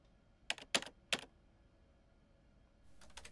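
Typing on a computer keyboard, quiet overall: three crisp clusters of keystrokes early on, a pause, then another rapid burst of clicking at the end.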